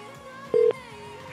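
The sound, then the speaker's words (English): A telephone tone from a man's phone: a single short electronic beep at a steady pitch, lasting about a fifth of a second over a faint background hum. “What's going on with this guy's phone?”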